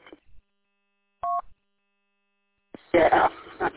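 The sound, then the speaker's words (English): A radio repeater sounds a brief two-tone beep, which signals a power problem at the repeater, after short bursts of static. A voice then speaks over the radio. “I'm guessing you're on the LTS repeater, sounds like, because it's doing double beep, which means it's something's going on with their power or something.”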